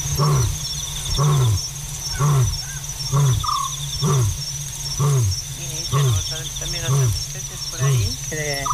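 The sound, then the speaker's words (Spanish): A lion roaring at night gives a long series of deep, grunting calls spaced about a second apart, set against a constant high chirring of insects. “El león tiene altavoz propio, decía Ramón Gómez de la Serna, una greguería. Y es verdad que parece como que amplifica su llamada, que se estira ahí por el fondo de la noche y ahí ensancha el paisaje.”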